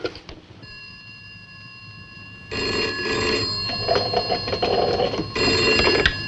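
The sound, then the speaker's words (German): A telephone rings with a bright, buzzing bell tone in repeated bursts, steady in pitch, with no voices over it. “Tarling glaubt noch immer, dass Anne bei ihrer Mutter ist und ruft sie an.”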